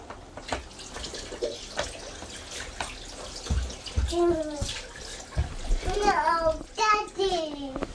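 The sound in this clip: Water runs into a bath with a steady splashing hiss, while a child and an adult talk over it.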